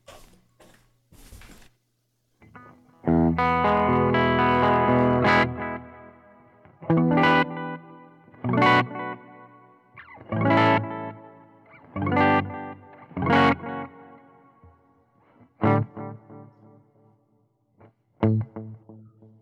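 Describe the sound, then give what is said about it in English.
An electric guitar with a humbucker pickup plays through an Earthquaker Dispatch Master pedal. One long, ringing chord is followed by a series of shorter chords and notes with a thick, effected tone, played alone without talk. “all I've done is switch guitars, so now we're going to be with the Zomitis here playing with a humbucker. So let's see what that sounds like.”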